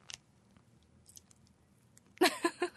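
Bread packed tightly with sausage is chewed, with faint mouth clicks at first, then a few loud, wet, crunchy bites close together at the end.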